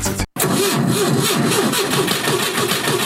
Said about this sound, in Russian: Все, завелись.